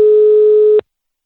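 A telephone call tone: one steady, loud, unwavering tone held for under a second before it cuts off abruptly into silence.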